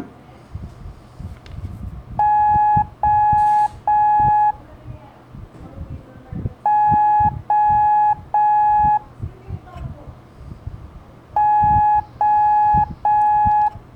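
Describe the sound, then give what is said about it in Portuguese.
Morse code for the letter O: three long, steady beeps at a clear mid-high pitch. The group plays three times with short gaps between the groups, over low background noise. “Da, da, da, termina com som longo, três sons longos, é a letra O de Oscar.”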